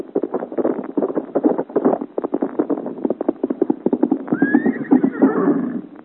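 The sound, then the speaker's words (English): A horse gallops on a road, its hooves clattering in a fast, steady rhythm throughout, and a loud, high whinny breaks out over the hoofbeats near the end. “it's a giant on horseback and riding as if the devil and all his hordes were after him. Look how he rides with the sparks rising from the road behind him.”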